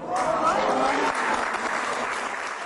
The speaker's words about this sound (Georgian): ამგვარის და სახელის ხსენებამ დიდი ოვაციები გამოიწვია დარბაზში.